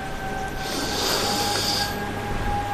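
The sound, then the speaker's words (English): Deep nasal inhalation by participants on a forest bathing walk in Knocksink Woods, County Wicklow: one soft, breathy hiss that swells and fades over about a second and a half, above faint steady background tones. “Maybe just open your mouth slightly, your nose, and just really inhale it. Move it around a little bit, and you can really smell the forest.”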